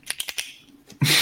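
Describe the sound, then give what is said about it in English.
Pen clicking: a quick run of sharp, crisp clicks in close succession, then a short pause and one fainter click. “keep clicking the pen”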